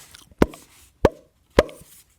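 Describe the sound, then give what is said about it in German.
Three sharp plopping bangs outside, likened to gunshots, each loud and sudden and evenly spaced about half a second apart, with quiet between them and no voices. “Draußen hörten wir immer weiter die Plopp-Geräusche und Schreie.”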